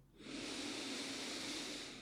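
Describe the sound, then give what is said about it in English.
A huge breath in, taken during a guided breathing exercise. After a brief quiet moment, a soft, airy inhale swells and holds steadily for nearly two seconds, alone and fairly quiet. “And let's pause here and take a huge breath in.”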